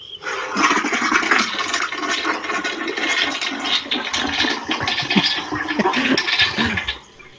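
A toilet flushes with a loud, continuous rush of water that holds steady for about seven seconds before cutting off abruptly.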